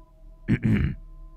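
A young male clears his throat in a short, low, two-part rasp, heard alone without speech.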